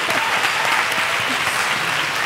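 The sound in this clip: An audience at a live show applauds with a steady, even clatter of many hands, continuous from start to finish.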